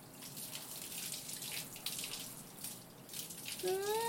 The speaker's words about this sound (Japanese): 頭皮は少しマッサージしながら流して。